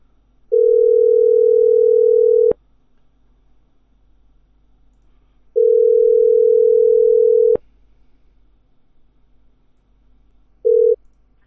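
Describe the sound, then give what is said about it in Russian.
Telephone line tone: two long, steady mid-pitched beeps of about two seconds each, separated by silence, then the start of a third, with a small click as each beep cuts off. “Ну-ка. О, гудок есть.”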